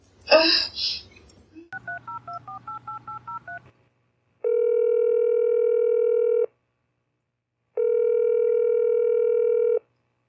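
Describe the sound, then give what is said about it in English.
Touch-tone dialing plays as a quick run of many short beeps at shifting pitches. Two long, steady ringing tones follow, separated by a pause, as the phone call rings through before reaching voicemail. “You have reached the voicemail box of Linnea.”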